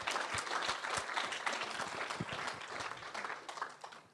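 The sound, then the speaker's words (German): An audience at a church seminar applauds in praise of Jesus. The crowd's clapping is dense at first and gradually thins and fades toward the end. “One more time, Jeremy, to give Jesus praise. Also ihr Deutschen, ihr dürft Jesus nochmal einen Lobpreisapplaus geben.”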